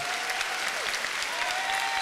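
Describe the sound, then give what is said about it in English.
A church audience claps their hands in praise, a steady wash of many hands clapping together at a fairly low level. “I want you to take both your hands and give the Lord a biggest hand clap of praise you can find.”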